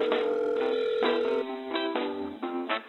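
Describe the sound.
A telephone dial tone sounds as a call is being placed: a loud, steady, narrow-band tone, then broken, changing tones.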